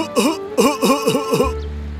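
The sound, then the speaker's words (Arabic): A voice imitates labored, difficult breathing blamed on pollution in a children's animated story. Five strained, moaning wheezes come in a steady rhythm, each dipping and then rising in pitch, fairly loud. “تتنفس بصعوبة. أجل، فالتلوث يجعل التنفس صعبا.”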